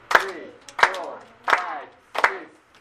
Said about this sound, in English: Watch what I'm gonna do. You're gonna clap your hands.